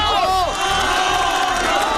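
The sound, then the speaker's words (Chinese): A crowd of onlookers bursts into loud cheering, with many voices shouting and whooping together in a short, energetic swell that lasts about two seconds. “观看的人群顿时发出雷鸣般的掌声和喝彩声。”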